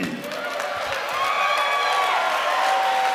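A crowd at a live tabletop role-playing game show at PAX West 2019 cheers and claps after a hit. The noise swells partway through, with sustained whoops riding over the clapping.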